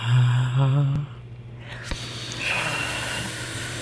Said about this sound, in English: Let's go all the way in. Full exhale, and if you can do a sigh at that, that'll even help a little bit more.